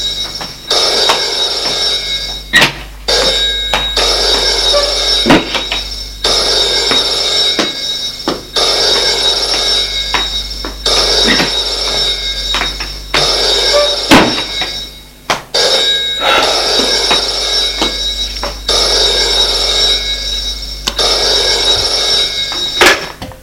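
A telephone rings in an office, loud and insistent, its bell repeating in long bursts separated by brief gaps for many rings, with no voices.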